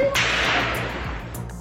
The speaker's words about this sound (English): At this point, the number of shots were fired into the air.